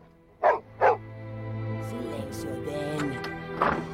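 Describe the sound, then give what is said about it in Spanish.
A dog barks at a visitor, giving two sharp barks in quick succession, then a drawn-out whining sound, then a third bark. “¡No le ladres a la visita!”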